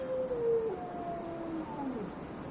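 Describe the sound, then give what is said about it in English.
A hound howling on the moor in a drama sound effect, heard as a thin, tonal wail. It holds steady briefly, then breaks into shorter, wavering fragments against a faint background hiss. “They say it's the cry of the hound of the Baskervilles.”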